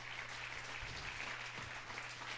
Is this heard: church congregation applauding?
yes